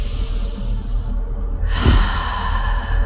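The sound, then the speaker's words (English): A single deep breath taken during a guided gratitude meditation: a soft, airy rush of breath rises briefly over a low, steady background hum. “Take a deep breath.”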